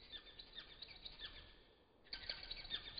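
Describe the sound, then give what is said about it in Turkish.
Chirping song of an Indian nightingale: a run of many quick, high notes that fades briefly, then resumes with brighter chirps. “İşte. İşte Hint bülbülü. Sen tam aradığım kuşsun.”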